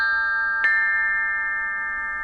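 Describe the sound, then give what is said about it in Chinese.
Ancient bronze chime bells ring with a clear, steady tone. A fresh strike lands partway through, and its shimmering overtones hang in a long, slowly fading resonance. No voices are heard. “快来听啊，曾侯乙编钟竟然再次奏响了”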